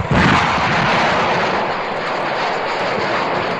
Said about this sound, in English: Stand by for rapid acceleration. Firing rockets.